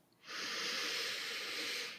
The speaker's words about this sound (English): Let's take a few deep breaths. In through the nose,